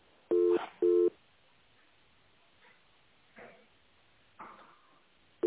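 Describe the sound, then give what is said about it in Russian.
Telephone line tones sound while a call is being transferred: two short, loud, two-pitch beeps in quick succession, then faint line hiss with a few soft muffled noises, all with a thin telephone-band quality. “Так, давайте попробую вас с Ольгой соединить.”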